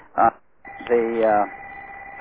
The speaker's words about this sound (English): Ringing, I'll just have to let it ring.